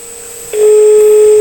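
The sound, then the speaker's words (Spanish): A telephone tone on an outgoing call, a steady, mid-pitched electronic hum that jumps abruptly to a much louder, continuous pure tone about halfway through, with no voices. “Estamos llamando ahora nuevamente a David. No nos quiere contestar, está asustado.”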